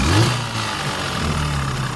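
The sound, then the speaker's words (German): Early motor sledges leading an Antarctic expedition give a low, steady mechanical engine drone, opening with a brief rising tone, with no voices. “Vorneweg fahren die Motorschlitten.”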